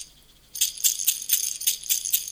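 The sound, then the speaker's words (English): A baby rattle is shaken in a quick run of crisp, high-pitched rattling bursts that start after a brief quiet opening and keep going in an uneven rhythm until the end. “Shake the rattle.”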